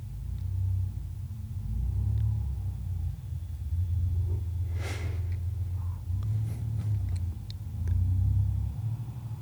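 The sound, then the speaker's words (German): An air-cooled boxer engine of a Porsche 964, just rolled off the lot, idles without throttle as a low, steady rumble with gentle swells and a brief airy hiss midway. “luftgekühlter Boxermotor. Genau. 964er Porsche.”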